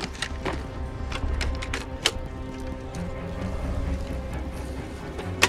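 A tape reel is threaded and started on a tape player: sharp mechanical clicks and ratchety taps recur over a low steady whir, with a final louder click at the end.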